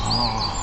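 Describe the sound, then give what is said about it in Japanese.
Natural spring forest ambience near Kamikochi, beside the clear Azusa River: high whistled bird calls ring over a steady, dense background wash, in a very brief snippet. “さらに一歩森に入ると、 はい、こんな感じの音です。”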